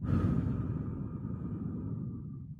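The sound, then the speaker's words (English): A deep breath is exhaled through the mouth during a guided breathing exercise, a soft, airy rush that slowly fades over about two seconds. “I'm going to draw some attention to the breath entering through my nose, letting that breath go way deep down into my belly, breathing out through my mouth,”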